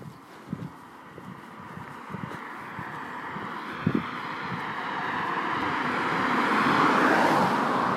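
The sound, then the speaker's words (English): Cars pass on a suburban road in Glanmire, Cork: a low background rumble with a few soft knocks early on, then a broad rush of road noise that swells steadily toward the end. “Yes, there are cars, but not an excessive number.”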